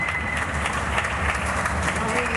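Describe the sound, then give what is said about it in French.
Residents of an apartment building on a small street in the French capital clap from their windows at 8 p.m. for health workers during lockdown, a steady patter of applause with a person talking over it. “C'est devenu un rituel dans toutes les villes de France. À 20h, on applaudit pendant 1 minute.”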